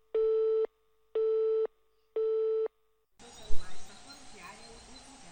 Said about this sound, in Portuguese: Mesmo sentindo muita dor, tenta ligar para alguém, mas seu celular está fora de área.